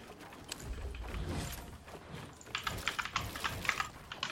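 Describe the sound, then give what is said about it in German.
Computer keyboard keys clatter as they are pressed during a fast building game, first in a steady patter and then in denser, sharper bursts of clicks. “ich drücke diese Tasten aber es nimmt die nicht”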